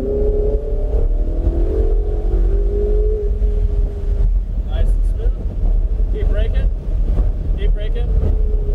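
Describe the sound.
A race car engine accelerating hard down a track straight, a loud, steady roar with a harmonic whine that climbs over the first few seconds. Heavy wind buffeting runs throughout, and a voice speaks over it in the later half.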